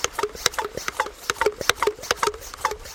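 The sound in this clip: Rhythmic clicking and rasping of a hand-pump spray bottle being pumped up by someone leaving a river, the bottle used to disinfect gear before spraying down waders; many quick, regular strokes at a steady pace.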